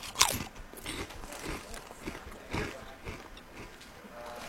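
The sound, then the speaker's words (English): A crisp bite into a brisket chip: one sharp, loud crunch, then several softer crunches of chewing that trail off. “Oh, a brisket chip is... Oh, hold on. Oh, it smells like calories. Hold on a second. I'm going in there.”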